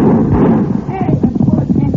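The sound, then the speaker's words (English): Gunfire in a radio drama shootout: a loud, dense rattle of rapid shots runs throughout without pause. “They see us, Cisco. It's not Senor Walker. Open fire on the boot. Fire. Fire back at them, Poncho.”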